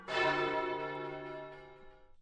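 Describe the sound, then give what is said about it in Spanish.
A single church bell stroke rings out festively on a Sunday, a bright metallic strike followed by a long, shimmering decay of overtones that slowly fades, heard alone. “vamos a iniciar un recorrido con el sonido de las campanas. Este sonido a fiesta, como hoy es domingo, o este otro que es anunciando”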